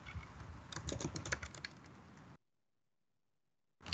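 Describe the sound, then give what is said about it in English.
Typing on a computer keyboard: faint, rapid, uneven key clicks patter steadily for about two seconds, then stop abruptly into silence. “the symptoms of diabetes and uh, you can also type resources for diabetes.”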